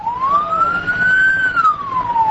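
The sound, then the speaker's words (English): An ambulance siren wails while the vehicle sits stuck in standstill traffic leaving an earthquake-hit town. One loud, sustained tone climbs gently, holds, then slides back down, with no voices. “Traffic out of town is at a standstill. This ambulance has been stuck for nearly 5 minutes.”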